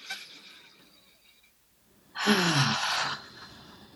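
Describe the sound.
A yawn during a relaxed deep-breathing exercise: after a few seconds of faint breath, one long voiced, breathy exhale swells up, its tone sliding downward before it trails off, with no talk.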